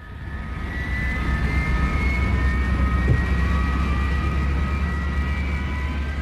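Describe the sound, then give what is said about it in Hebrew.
An airplane bound for Bermuda takes off. Its engine roar swells over the first second, then holds a loud, steady drone with faint whining tones above it, and no voices. “המטוס לברמודה ממריא בעוד 30 שניות.”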